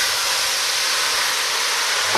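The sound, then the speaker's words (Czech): Slivovitz poured into a cooking pan flares up into flames about one and a half metres high when lit, producing a loud, steady, airy whooshing hiss that holds without a break. “Když jsme přilili slivovici...”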